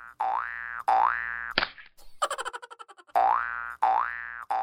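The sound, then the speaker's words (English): Cartoon boing effects for a bouncing Easter egg: two springy boings with wobbling pitch, then a quick swoosh and a rapid run of shrinking bounce pulses, then two more loud wobbling boings. “Easter bunny bouncing egg sound.”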